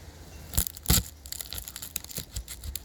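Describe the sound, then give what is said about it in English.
A knife cuts a red onion in half with two sharp, crisp crunches, followed by many smaller crackling ticks as the blade works through the layers. “Yes, it's a red onion, and you really need some protection when cutting up onions. So we're just going to cut it in half and take a look now.”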